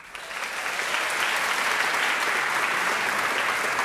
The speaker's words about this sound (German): Und nachdem sie so laut applaudiert haben, können sie eigentlich direkt wieder weitermachen.